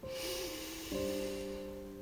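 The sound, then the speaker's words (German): A long, deep breath drawn in, a soft airy rush lasting about two seconds over gentle sustained tones that shift to a fuller chord midway. “Schließe nun ganz sanft deine Augen. Atme dreimal tief ein”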